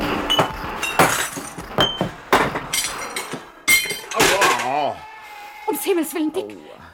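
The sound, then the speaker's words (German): Glass jars of preserves, including raspberry jam, shatter as they are shot in a radio play. A series of sharp crashes and clinks of breaking glass ring out, and voices come in near the end. “mir ist nur ein Glas Himbeermarmelade auf den Kopf gefallen. Das ganze Eingemachte haben sie zerschossen.”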